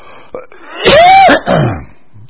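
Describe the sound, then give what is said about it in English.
Two loud, rough coughs in close succession from a speaker whose voice is strained from talking, the first longer and voiced, the second shorter. “I'm not sick, it just, I start talking and it strains it a little bit, and then the cough comes.”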